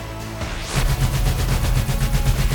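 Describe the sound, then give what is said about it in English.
A huge laser turret blaster fires in a sci-fi story: a rapid, even stream of many loud pulsed blasts over a heavy low rumble. “Holding onto the big weapon with 2 hands, he pulled the trigger.”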